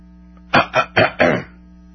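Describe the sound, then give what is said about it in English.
Throat clearing in four short, rough bursts of even loudness, heard alone with no talk. “Would it be rude of me to clear my throat on the air?”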